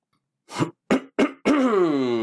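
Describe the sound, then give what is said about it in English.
Throat clearing: three short, raspy bursts in quick succession, then a longer voiced sound with a steady buzzing tone. It is fairly loud and heard alone. “You, like, cleared out the throat for that one.”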